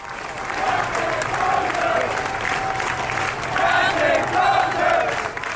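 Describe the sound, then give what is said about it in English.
Hundreds of sailors aboard ship cheer, clap and chant as Captain Crozier leaves in a relatively contained space, making a dense, sustained roar of crowd voices that swells and ebbs throughout. “hundreds of the sailors who are left aboard meet in a relatively contained space, basically say, we're going to cheer this guy off. They're chanting, Captain Crozier.”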